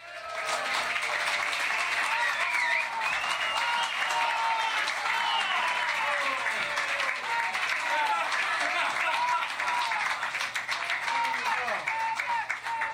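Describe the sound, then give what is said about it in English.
Sustained applause from a security conference audience clapping for an encore, dense and loud for the whole stretch without a break, with voices mixed into the crowd noise. “And I want you all to start clapping and ask for an encore.”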